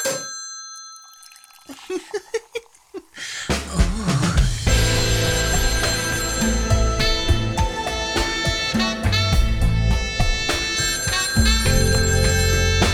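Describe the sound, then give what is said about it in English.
Telephone ringing as a quick run of bright, repeated ringing chimes, after which loud music takes over and continues to the end. “I think we've got a caller.”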